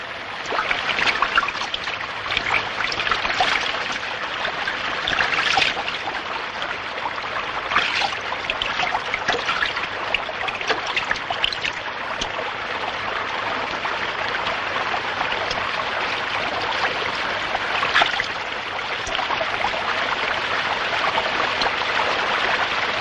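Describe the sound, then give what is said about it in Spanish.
River water at a woodland bank runs steadily as someone rinses mud from hands and knees, a bright continuous trickling wash broken by occasional small splashes, with no voices. “Berta se queda a solas junto al río y comienza a limpiarse el barro de las manos y las rodillas con el agua de la orilla.”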